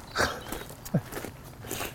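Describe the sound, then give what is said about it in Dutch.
Footsteps walking along an outdoor path, a few soft, separate steps spaced unevenly across a quiet, faint background. “we gaan rustig dit pad gewoon zo lopen”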